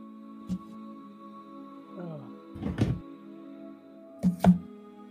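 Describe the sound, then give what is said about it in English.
A twenty-sided die rolled on a table gives a few soft, scattered thunks, then a quick cluster of bounces midway and two sharp knocks near the end, faint over a low steady hum. “Roll a d20 for me.”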